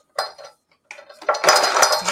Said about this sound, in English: And the more you pull, the finer it chops.